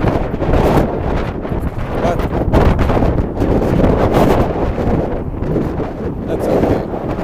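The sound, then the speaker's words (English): Wind blows into a microphone outdoors, making a loud, continuous rumbling buffet with gusty surges that rise and fall throughout. “There's some fucking wind. This is probably one of the worst things you've ever listened to.”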